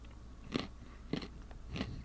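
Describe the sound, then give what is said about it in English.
Biting and chewing crunchy granola with nuts and honey: three crisp, faint crunches spaced evenly apart, alone with no talk. “Just tastes like granola.”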